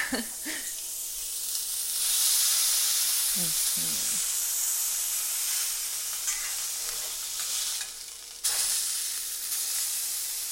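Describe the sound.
Food sizzles in a frying pan as it is flipped with a spatula. A quiet, steady hiss runs throughout, broken by a few short scraping and clattering sounds.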